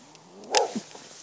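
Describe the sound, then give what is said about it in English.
A single brief, faint vocal burst from an angry dog behind someone walking outdoors in the dark, one short sharp sound over a quiet background with no talk. “Growling angry dog behind me walking slightly faster”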